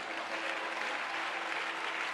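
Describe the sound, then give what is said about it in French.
A church audience applauds to acclaim the Lord, a steady, even wash of many hands clapping that stays faint and unchanged in level from start to finish. “Acclamons le Seigneur.”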